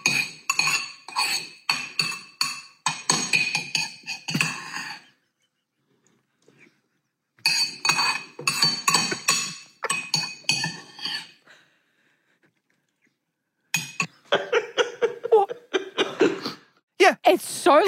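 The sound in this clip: Cutlery and dishes clink while someone eats breakfast. Rapid, bright clinks and scrapes come in three bursts, with silent pauses between them.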